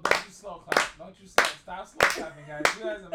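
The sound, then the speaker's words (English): Slow clapping from a group of people: five sharp, evenly spaced claps roughly two-thirds of a second apart, with people talking throughout. “Don't you slow clap. Stop slow clapping, guys.”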